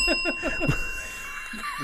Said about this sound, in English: Ring the bell.